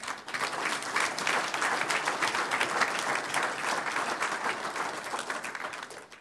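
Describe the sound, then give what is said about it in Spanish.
Sustained applause from a church audience, dense and even, steady clapping that holds loud for about six seconds with no voices over it. “Un aplauso al Señor.”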